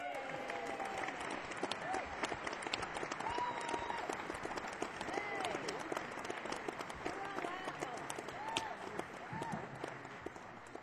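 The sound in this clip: Dense, continuous audience applause welcomes a performer onto the stage at a Fairport Convention concert. Many hands clap steadily and loudly for the whole stretch with no break.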